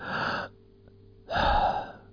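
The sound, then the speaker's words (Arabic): A person demonstrates breathing with an audible exhale and then an inhale. The two airy, rushing breaths are separated by a quiet pause, and the second breath is louder and fuller. “الآن ها أنا أتنفس للخارج، أنا أتنفس للداخل.”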